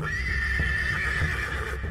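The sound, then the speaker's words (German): A horse neighs loudly as a sound effect for a two-metre wooden horse in a puppet play: a sustained, bright whinny that holds its pitch for about two seconds. “Da reitet etwa von rechts ein 2 Meter großes Holzpferd bedrohlich auf mich zu und springt über mich hinweg.”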